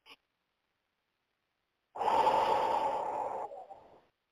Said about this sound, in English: One more deep breath.